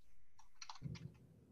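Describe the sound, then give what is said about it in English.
Typing on a computer keyboard gives a short run of faint, quick key clicks, then a low, quiet hum. “I'm typing it into the comments right now.”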